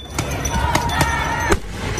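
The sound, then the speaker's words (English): Tear gas and smoke bomb rounds fired during a street riot in Los Angeles: four sharp, hollow pops punch through a steady background din at uneven intervals. “Tear gas, smoke bombs, maybe even a rubber bullet or two, who knows?”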